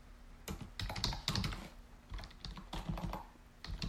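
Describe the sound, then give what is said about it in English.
Faint typing on a computer keyboard: many quick, light key clicks in uneven bursts and short pauses, heard alone. “you're seeing me type in real time right now. And I must have hit the insert button because now I'm overwriting all my text.”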